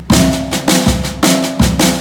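Drum kit playing one measure of a pulse pattern, with the pulse carried by the bass drum: four loud, ringing accented hits with lighter strokes between them, in a steady driving rhythm.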